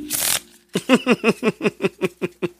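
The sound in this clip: Brand-new playing cards are handled: a brief papery rush, then a quick, evenly paced run of many crisp flicking snaps.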